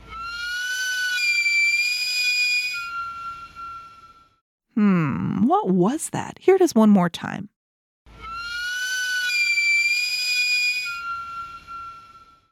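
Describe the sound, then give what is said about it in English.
A camote cart's steam whistle sounds twice, each blast a shrill, steady, hissing tone lasting about three seconds, with a person speaking in the gap between the two. “A camote cart. A camote cart.”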